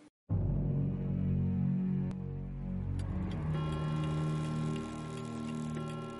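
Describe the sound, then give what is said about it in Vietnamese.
A pendulum clock sounds at night with a few resonant metallic strikes that ring on and overlap into a sustained, layered tone, loud against an otherwise quiet background. “Tiếng đồng hồ vang lên rõ mồn một trong đêm tối, không gian im lặng đến rợn người.”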